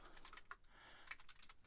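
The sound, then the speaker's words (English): Typing on a computer keyboard while entering terminal commands: a few quiet, quick key clicks at an uneven rhythm, with no voices. “sorry, I typed the wrong thing.”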